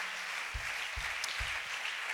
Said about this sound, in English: Let's just one more time. Let's give a good hand clap for all the workers that's made this camp happen.